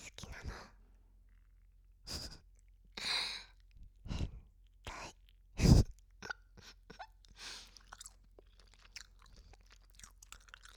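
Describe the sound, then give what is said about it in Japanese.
Noisy gum chewing with wet smacks, clicks and squelches in irregular bursts, one louder smack standing out among quieter mouth noises and soft breaths. “ホタルのガムをくちゃくちゃ食べてると聞こえる？”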